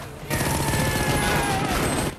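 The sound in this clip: Dense, loud gunfire from attacking troops during an ambush in a film scene, a continuous fusillade of rapid shots lasting about two seconds.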